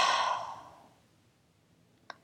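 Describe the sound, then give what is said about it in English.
Deep exhale through an open mouth at the close of a yoga class, a breathy whoosh that fades away over about a second, followed by quiet and one faint short click. “To close, take a deep inhale through your nose. Open mouth.”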